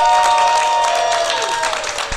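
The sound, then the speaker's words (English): Studio audience cheering and applauding, with dense, steady clapping and cheering voices blended into it, easing off slightly toward the end. “We cheered for them.”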